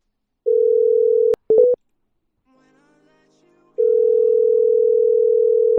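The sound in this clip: Telephone dial tone while calling a number at the bank Russian Standard: a steady tone broken by a few short blips, then a quiet gap before the tone resumes steadily to the end.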